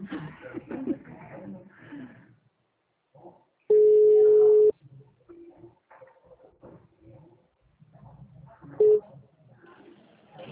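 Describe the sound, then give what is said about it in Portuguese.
Ringback tone on an outgoing telephone call: a steady mid-pitched tone lasting about a second, later followed by a much shorter one, with people talking before, between and after the tones. “agora tá chamando”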